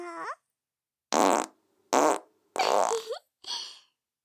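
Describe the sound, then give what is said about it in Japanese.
Four separate farts sound as raspy, buzzing blasts, each lasting a fraction of a second, with silence between them. A brief tonal squeak comes at the very start, and the last burst is shorter and fainter. “私のおならを食らったら何も喋れなくなっちゃいますから。”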